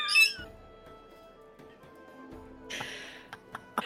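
Pet birds squawking and chirping: brief high squawks at the start, then a louder burst of calls near the end, with a faint hum in between. The bird sounds are quiet overall.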